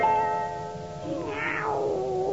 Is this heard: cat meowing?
yes